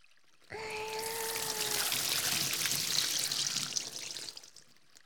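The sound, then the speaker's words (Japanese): Water pours and trickles as shampoo is rinsed out of hair, a steady soft rushing that starts abruptly and runs about four seconds before fading. It stays fairly faint throughout. “ジャバーって流しちゃいますからね。”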